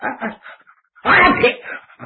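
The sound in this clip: A storyteller's voice imitates a sneeze as a loud, breathy burst after a few short clipped syllables, trailing off into quieter vocal sounds.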